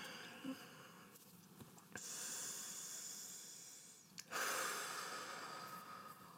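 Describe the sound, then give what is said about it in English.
Two long, deep breaths taken to get centered, each a hissing, airy rush of air lasting about two seconds, one following the other with no talk. “let me take a couple deep breaths and get centered”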